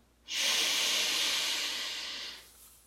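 A single slow, steady breath drawn in during a guided breathing exercise, a soft airy hiss that swells quickly, holds for about two seconds and then fades away on its own.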